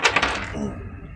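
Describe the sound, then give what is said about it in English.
Dice clattering as three six-sided chaos dice are rolled during a game: a few quick, sharp clicks at the start that settle into a softer, fading rattle. “Roll that and your 3d6 chaos dice.”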